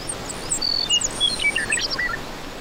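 Bluebirds call around the nest at fledging time, trading many thin, high chirps and short whistles, some sliding in pitch, over a faint steady hiss.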